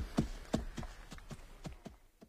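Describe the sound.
Horses' hooves clop while riding through a forest, a faint, even run of hoofbeats in a steady rhythm with no talk over them.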